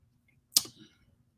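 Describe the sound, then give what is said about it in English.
One sharp computer mouse click as comments are opened, a faint single snap that fades quickly into quiet. “Well, it's nice. I click on the comments. There's actually people there. I clicked on the comments”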